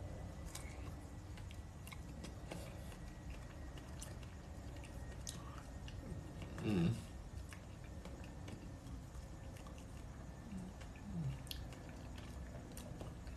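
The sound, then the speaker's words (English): Biting into and chewing dragon fruit, very faint: one crisp, moist bite stands out midway, with soft wet chewing under a constant background hiss. “Got that good old dragon fruit. Gonna bite into that. Dragon fruit moment.”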